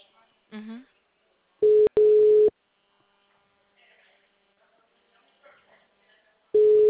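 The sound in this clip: Telephone ringback tone on an outgoing call: steady mid-pitched tone bursts, two short ones in quick succession, then a long pause before another begins at the end. A brief voice is heard before the first burst.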